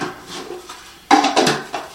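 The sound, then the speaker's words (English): Sharp plastic clicks of a lid being snapped onto a Paterson film developing tank. After a quiet stretch, a loud snap lands, followed by a few lighter knocks and clicks. “I'm going to put this in my Patterson tank. Then I'm going to get the lid. I'm going to snap that on.”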